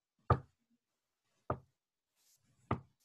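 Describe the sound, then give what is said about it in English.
Three sharp knocks demonstrated as if on a bedroom wall, evenly spaced about a second apart and heard alone against silence. “like three knocks just like that.”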